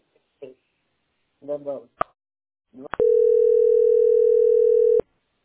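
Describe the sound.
Telephone tone heard while an extension number is dialed: after a few brief bits of speech and a sharp click, a loud, steady mid-pitched tone holds for about two seconds and then cuts off abruptly.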